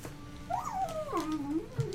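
A dog whimpering: one drawn-out, fairly faint whine that climbs, dips, climbs again and then wavers lower, with no voices over it.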